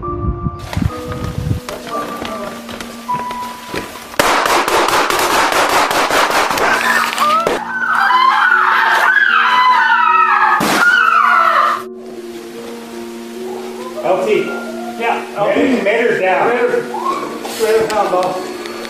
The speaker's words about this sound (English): Now, I want to give you some warning, because this is going to be pretty loud. Just be advised that three officers are shot and the commander is killed.